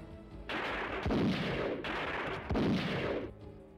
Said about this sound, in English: He's using fireworks again.